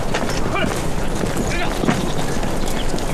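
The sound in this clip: A horse galloping as a rider sets off, with rapid, steady hoofbeats in a dense, noisy rush while voices talk over them.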